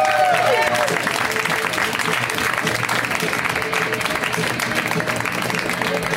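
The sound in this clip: Loud, sustained applause and crowd noise from a comedy show audience welcoming a comedian to the stage, a dense, even wash of clapping that carries on without a break.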